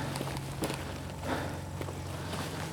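Footsteps walking outdoors through the middle of a town roundabout, soft irregular steps over a steady low background hum.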